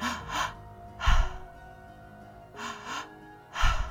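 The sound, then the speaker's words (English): Deep breaths are drawn in and let out during a guided meditation. Four distinct breathy bursts are separated by soft pauses. “filling up completely with every breath, taking in all the breath”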